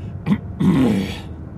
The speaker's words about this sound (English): Got a little clog in my throat, working my way through that.